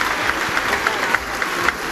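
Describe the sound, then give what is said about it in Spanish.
Sustained applause fills the Peruvian Congress for the female president before her address to the nation, a dense, steady patter of many hands with crowd murmur beneath it. “En tanto, los aplausos continúan a la mandataria, quien va a proceder en estos momentos a dar el mensaje a la nación.”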